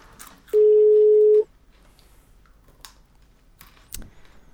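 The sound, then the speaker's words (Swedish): A single steady ringback tone from an outgoing telephone call, a flat mid-pitched beep lasting about a second, followed by near silence with a few faint clicks. “Vi ringer, ja, lite, vi ringer Joakim Karlsson på hans rätta nummer.”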